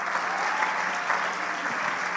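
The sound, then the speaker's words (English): Steady, dense applause from an audience at a church sermon, with many hands clapping together at an even loudness throughout and no voices standing out. “Come on, clap your hands to Jesus.”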